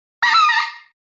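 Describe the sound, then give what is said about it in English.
A single specklebelly goose yodel call, blown by a hunter to draw geese. It is a bright, reedy note lasting under a second that starts abruptly and then trails off quietly. “I'll hit them with a few yodels, and that sounds like this.”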